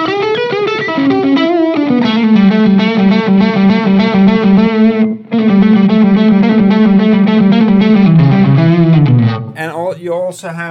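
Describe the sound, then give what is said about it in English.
A heavily distorted instrument tone through a Jan Ray overdrive pedal with the treble turned up. Loud, buzzing sustained notes shift in pitch, break briefly once, then end in a short noisy burst. “plenty of distortion if you want.”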